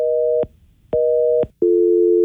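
Busy signal on a radio station's call-in phone line after a call dropped: two evenly spaced pulses of a loud dual-pitched tone, then a lower steady tone that continues to the end.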